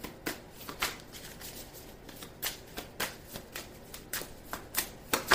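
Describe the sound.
Tarot cards being shuffled by hand, with many crisp, papery riffles and slaps in an uneven rhythm, fairly quiet and with no talking.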